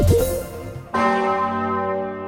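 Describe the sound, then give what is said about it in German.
A large church bell in Kassel tolling: two deep, heavy strikes about a second apart, each leaving a long humming resonance that slowly fades, with no voices. “In einer halben Stunde läutet sie wieder, die große Osanna-Glocke der Martinskirche in Kassel.”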